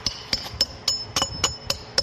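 A small hammer taps on traditional tile in a tile-making workshop at Herat's Great Mosque, worked gently by a 55-year-old craftsman. Many sharp, ringing metallic taps fall in a steady, even rhythm, with no talk.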